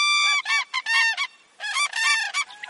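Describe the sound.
Common cranes calling while migrating from the Himalaya and Hindu Kush to stopover sites along the Indus river: loud, nasal, harmonic trumpeting calls in two quick clusters separated by a short lull.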